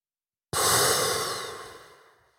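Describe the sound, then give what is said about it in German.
A deep breath taken during a box breathing exercise: one long, airy breath that starts abruptly, then gradually fades over about two seconds, heard alone. “Das zum Beispiel ist jetzt eine Atemtechnik, die nennt sich Box Breathing.”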